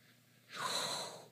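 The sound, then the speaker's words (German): A single deep breath drawn down into the belly during a group breathing exercise. It is a brief, soft, breathy rush of air that swells and then tapers, heard alone without talk. “Nehmt mal eure Hand und legt sie mal auf den Bauch. Und dann atmet mal in den Bauch.”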